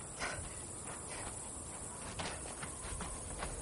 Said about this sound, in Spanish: Se incorpora y avanza cojeando por la cuneta.